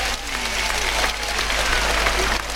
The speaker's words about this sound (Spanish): Pues, el público ovaciona fuertemente a Morante,